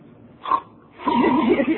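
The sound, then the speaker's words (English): A voice imitates a snarfling snore: a short nasal snort, then a longer wavering, gurgling throaty sound. “He's been introduced to the symphonic range. Of his snoring? Yeah, he says it's worse than ever. You know that snarful one?”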